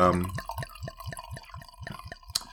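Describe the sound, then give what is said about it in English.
Wine is poured from a bottle into a glass, giving a quick run of hollow, gurgling glugs in an even rhythm that rise slightly in pitch as the glass fills. “We'll pour some out. Let me have that glass.”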